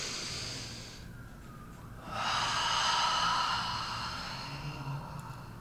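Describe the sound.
A person taking a deep breath, a long airy inhale that swells for a couple of seconds and then eases away, heard alone without any talk.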